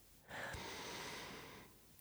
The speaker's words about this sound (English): Now we're going to take 10 deep breaths in and out. Let's try together.